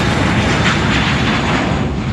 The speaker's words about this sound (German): Das ist ein Düsenjet. Der startet gerade.